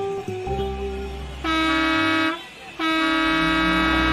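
A bus horn honks as the bus pulls up, sounding two long, loud, steady blasts separated by a short gap, with the second held until the end, over a low, continuous engine rumble.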